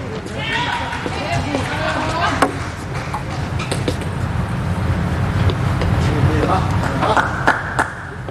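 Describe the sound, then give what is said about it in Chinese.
Table tennis ball clicks from a serve and the following rally in the fourth game of a match: a few sharp, faint ticks under a commentator talking steadily. “第四局啊，千羽轩先来发球。”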